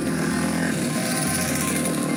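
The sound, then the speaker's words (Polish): Motorcycles riding on the road as riders return after the winter break, a steady buzzing engine roar that holds constant throughout without talk. “Motocykliści na start. Po zimowej przerwie fani motocykli wrócili na drogi i oficjalnie rozpoczęli sezon”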